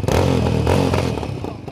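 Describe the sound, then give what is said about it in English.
A dirt bike engine revving on a city street makes a loud, rough, buzzing whine whose pitch shifts as the throttle works, easing slightly toward the end. “That's the sound of a dirt bike.”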